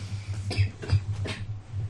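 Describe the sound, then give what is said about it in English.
Three rough, fairly faint coughs from a person with long COVID, evenly spaced over a low steady hum. “No, I have long COVID. Okay. Oh. And I haven't stopped coughing.”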